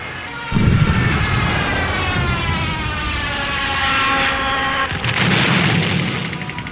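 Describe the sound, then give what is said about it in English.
Bombs explode in a 1941 air raid on a zoo, with 500-pound bombs dropped, heard as loud, rumbling booms under a sustained siren-like wail that continues throughout. “In 1941, the first English bombs fell on the Berlin Zoo.”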